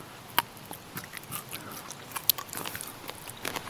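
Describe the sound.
Faint, moist chewing of the tender, pale inner part of a boiled root, with soft irregular bites and small clicks scattered over a low background hiss and no talking.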